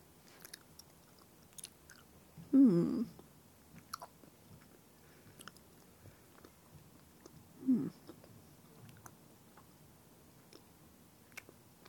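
Gummy candies shaped like leaves and strawberries being chewed, with two short, soft chewing bursts separated by quiet stretches and no talking.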